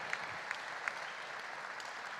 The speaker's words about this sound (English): All right, could we give all of tonight's recipients a round of applause?